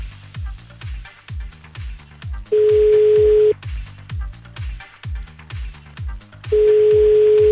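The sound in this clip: Telephone ringback tones sound as a call is placed again: two long, steady electronic tones, each about a second, separated by a gap, over a low rhythmic background beat.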